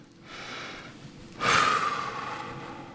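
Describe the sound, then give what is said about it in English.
A big deep breath taken during a moment of prayer: a quiet airy start, then a loud, sustained rush of breath that swells about halfway through and carries on to the end. “Close your eyes. And take a big, deep breath.”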